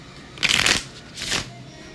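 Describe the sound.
Tarot cards are shuffled in two quick riffling bursts, the first louder and longer, the second softer, with no talk over them.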